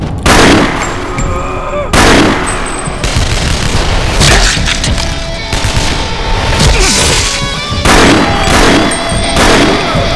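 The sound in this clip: Pistol gunshots ring out as several loud, sharp cracks spaced irregularly over ten seconds, each with a short, rumbling tail and no voices between them.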